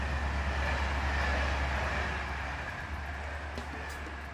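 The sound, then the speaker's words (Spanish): A night train from Limoges to Paris runs fast through the Loire Valley at about 161 km/h, making a steady, fairly quiet low rumble that holds evenly from start to end. “El tren nocturno de Limoges a París recorre con rapidez el Valle de Loira a 161 kilómetros por hora.”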